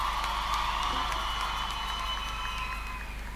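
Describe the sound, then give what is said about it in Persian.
Applause from a concert audience cheering on a singer, a dense, steady wash of clapping that holds evenly throughout and eases off slightly at the end. “به افتخارش دست بزنیم.”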